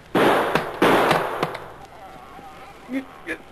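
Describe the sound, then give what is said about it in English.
Two loud, sharp gunshots fired to blast the lock off a chest, each crack trailing into a rough, rumbling decay, with a brief voice after. “Stand back here a ways and shoot the lock off”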